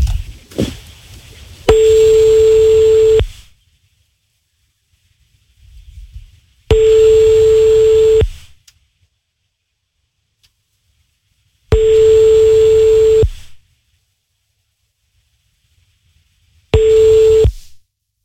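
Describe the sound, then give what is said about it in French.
A telephone ringing tone sounds during a prank call: four long, steady, mid-pitched beeps of equal length, evenly spaced with quiet gaps, and only faint stray noises between them. “On appelle la copine d'Evric. On passe en mode canular sur Trace FM.”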